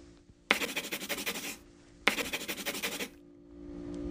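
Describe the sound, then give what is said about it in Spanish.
A pen scratches across paper while drawing snowmen, in two separate bursts of about a second each, every burst made of quick rhythmic strokes with short quiet gaps around them. “En la sexta página, vamos a dibujar seis hombres de nieve.”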